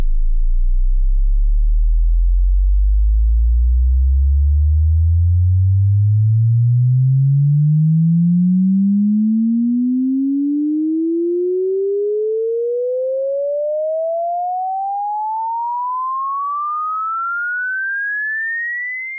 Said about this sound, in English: here's a sweeping audio tone from Sonic Electronics. It demonstrates the range of human hearing, from 20 hertz to 20,000 hertz.